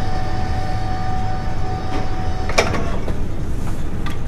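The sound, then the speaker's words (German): A winch on a research ship amid Arctic sea ice hauls in rope, giving a loud steady mechanical drone with humming tones and a few sharp clanks. “Die Winde wickelt das Seil Meter um Meter auf.”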